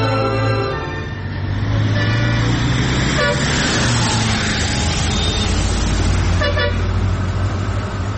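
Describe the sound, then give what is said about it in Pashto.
A car pulling over to the roadside: a loud, steady engine rumble and road noise fill the whole stretch, with a few short horn toots rising above it. “استاده موټر دې لږ چنډې ته ودروه.”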